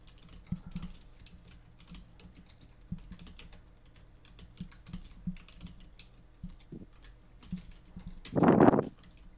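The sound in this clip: Typing a message on a computer keyboard: soft, irregular clicks of keystrokes tapping along at an uneven pace, faint throughout, with a louder burst of noise near the end.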